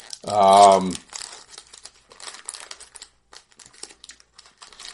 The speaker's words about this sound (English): Let's open these hockey cards. All right. We're going to open up the 93-94 premiere first.